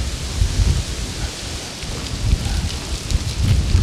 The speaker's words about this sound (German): Jetzt kommt Sturm auf.